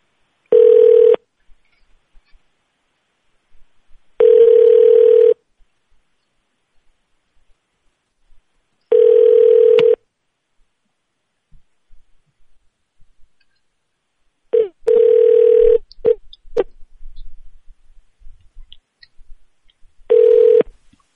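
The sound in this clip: Telephone tones during a call transfer, heard as a steady single-pitched beep about a second long that repeats several times at intervals of roughly four to five seconds. Faint clicks and rustling fall between the beeps.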